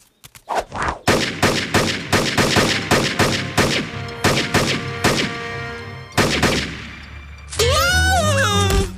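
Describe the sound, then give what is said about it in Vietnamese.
Gunfire from shooting practice: many sharp, loud shots in an irregular burst, some in quick clusters and others spaced apart, cracking out one after another for about six seconds. “Tiếng súng. Tiếng súng.”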